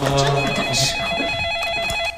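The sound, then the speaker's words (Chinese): A telephone rings with an electronic ringtone: a steady, bright warbling tone that repeats in quick pulses, with a voice heard briefly at the start. “来电话了，来电话了，来电话了。 谁的电话？”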